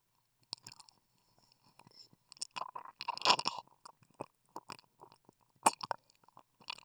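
Wet licking sounds on an ear: many soft, irregular smacks, clicks and slurps in uneven bursts, quiet and close, with no talking.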